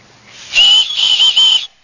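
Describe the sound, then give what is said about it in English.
Shrill high whistle blown on a small whistle built into the sternum strap clip of a hydration backpack: one sustained blast of about a second that wavers slightly in loudness, with no voices. “If you look at this this piece of the clip, the sternum clip, this is a whistle right here. It's a whistle.”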